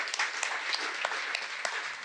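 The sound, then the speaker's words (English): Applause from a live event audience after a speaker introduction: dense, steady clapping that fills the whole two seconds, with a few sharper claps standing out and no voices heard. “Give them a big round of applause, ladies and gentlemen.”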